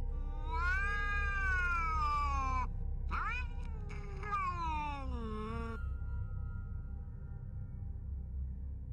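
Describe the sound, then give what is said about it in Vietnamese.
A cat sits on a rooftop in harsh midday sun, wailing like a crying child: two long, drawn-out cries, the second sliding downward in pitch, over a steady low rumble. “con mèo ngồi chồm hổm trên nóc nhà, nó ngước cái đầu lên trời rồi kêu lên những tiếng như là tiếng khóc của trẻ con.”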